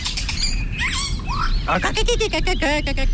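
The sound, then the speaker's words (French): A common chiffchaff sings a rapid series of high, bright chirping notes, scattered at first and then repeated in a quick, regular rhythm over a constant low background noise. “Oh, le joli Philoscopus colibita. ...apprend les chants d'oiseaux.”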